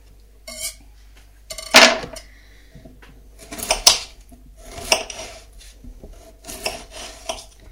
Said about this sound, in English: So, chopping the onions now into bite-sized pieces and putting these into a bowl.